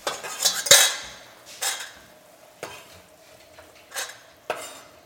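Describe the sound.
A knife blade scrapes chopped food from a cutting board into a pot, giving a few sharp scraping strokes and light clatters spaced apart over a low background hiss.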